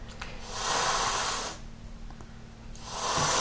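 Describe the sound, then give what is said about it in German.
A cat hisses at another cat nearby while perched on a coat rack: two long, breathy, moderately loud bursts, the second starting near the end, over a faint low hum with no talk. “Jetzt faucht sie, weil Blackie in der Nähe ist.”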